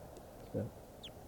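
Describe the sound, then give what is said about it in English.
A type 2 crossbill calling near a mist net: a brief, high, downward-slurred chip note or two, faint beneath a person talking. “Except now I've got a couple right here by the net, including a type 2 who's calling.”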